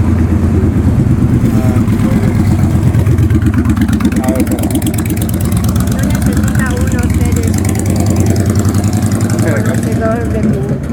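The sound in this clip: Street traffic with cars passing, a steady low engine rumble that fills the whole stretch without a break, with voices heard over it.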